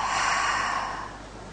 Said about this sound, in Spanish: Inhala y exhala.